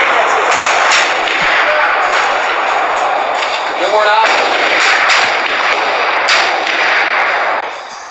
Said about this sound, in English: Guns. Music to my ears right there.